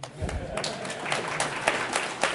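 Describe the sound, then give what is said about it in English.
An audience applauds after a live software demonstration. The clapping is faint and scattered, a busy rattle of hands with some louder claps throughout. “Okay. Can I have applause?”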